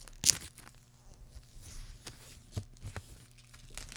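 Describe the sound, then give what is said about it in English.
Crinkling and tearing of plastic shrink wrap as a sealed vinyl record is unwrapped: one sharp rip near the start, then scattered quiet crackles and rustles at a low level. “All right, album number two. I got to unwrap it. Yeah, it was see, sealed.”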